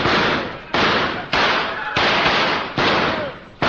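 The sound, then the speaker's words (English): Gunfire in a radio drama: a rapid, evenly spaced series of loud, booming shots, each one ringing out in a long noisy decay before the next hits. “Fire at him!”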